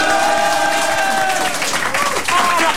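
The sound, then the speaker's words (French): A studio audience applauds and cheers in a steady, loud wash of clapping mixed with voices that holds throughout. “Mais non, écoutez le public, là!”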